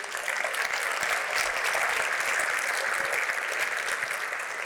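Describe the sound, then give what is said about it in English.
Audience applause for a company team named a finalist at an industry awards panel: dense, steady clapping that holds at an even loudness for the whole stretch without pause. “quick round of applause for the Ritchie Group.”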